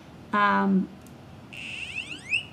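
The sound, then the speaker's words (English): An electronic buzzer on a micro:bit V2 microcontroller board plays tones: first a short, low, buzzy note lasting about half a second, then after a pause a run of quick, high chirps sweeping upward. “it's still got the LEDs, but now it's got a buzzer. It can make tones.”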